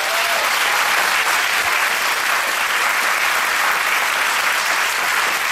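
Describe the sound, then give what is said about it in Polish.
A studio audience applauds, a dense, loud, steady wash of clapping that carries on through the whole clip without fading. “Gorące oklaski!”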